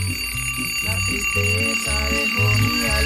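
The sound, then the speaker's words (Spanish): An alarm clock rings loudly with sustained high ringing tones, layered over shifting lower tones that step up and down throughout, without pause and with no speech. “Ya sonó el despertador, Cinco minuticos. No, no lo apague, hombre, no lo apague”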